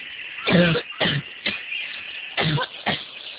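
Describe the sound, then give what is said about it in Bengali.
Coughing from someone ill with a fever: five short, hoarse coughs in two groups, three and then two, moderately quiet, with no talk. “তেমন কিছু না, একটু কাশি হয়েছে, কিছু না।”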